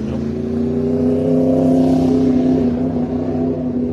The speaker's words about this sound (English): these bikes keep going back and forth